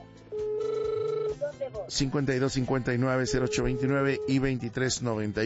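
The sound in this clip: Ringing tone of an outgoing telephone call: one steady, buzzing tone lasting about a second, after which a loud voice takes over.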